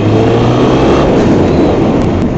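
A motorcycle engine runs while being ridden, a loud, continuous, rough drone mixed with rushing noise that holds steady throughout, with no voices.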